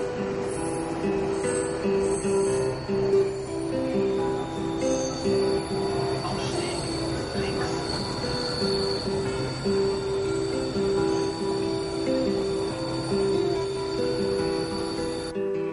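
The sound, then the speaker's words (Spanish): A train rides along the rails, its wheels squealing in steady high tones over a continuous low rumble that stays even and loud throughout, with no voices. “Otro día, Amish va en un tren y mira seria por la ventanilla a los distintos edificios a su paso.”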